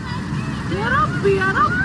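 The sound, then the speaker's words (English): Rushing floodwater roars steadily in a video of a deadly flood that swept people into the Mediterranean, while frightened voices cry and call out in wavering tones over the torrent. “You can hear the fear in their voices and the power of the water.”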